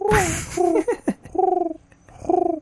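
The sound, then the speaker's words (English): A human voice imitating a pigeon cooing, with a few warbling, throaty coos in short pulsing phrases separated by brief pauses. “Could you do a pigeon, like if Shaggy got transformed into a pigeon?”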